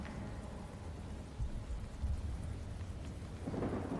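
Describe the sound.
Steady, dense rain hisses throughout, with a few low thunder rumbles swelling beneath it and a rougher surge near the end. No voices are heard.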